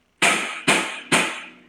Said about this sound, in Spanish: Entonces, acá por este lado tenemos uno que se llama el hi-hat, que suena así,